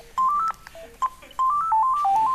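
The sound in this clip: A phone ringtone signals an incoming call during a live talk. Its electronic melody of clear stepped tones plays in short phrases separated by brief gaps, and the phrase repeats.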